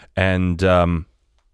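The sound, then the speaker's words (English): A voice imitates a bow being shot in a video game, producing one loud, voiced, two-part twang that lasts about a second with nothing else around it. “all of a sudden you hear right behind you a bow sort of like that being,”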